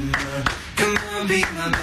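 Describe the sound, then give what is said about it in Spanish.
Rhythmic handclaps in a pop song, a few sharp claps landing at regular intervals over the music. “Palmas.”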